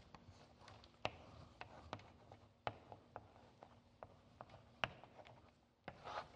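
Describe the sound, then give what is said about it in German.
A pen writes a word in faint, irregular scratching strokes, punctuated by many small taps as it lifts and lands on the surface. “Nun packen wir es mal kurz nach rechts und schreibe ich hier mal ein anderes Wort drüber.”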